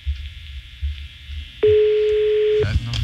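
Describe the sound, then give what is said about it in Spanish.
A telephone rings on an outgoing call as one steady, single-pitched ringback tone lasting about a second, with muffled voices talking before and after it. “Está sonando el teléfono este infeliz Santa Claus.”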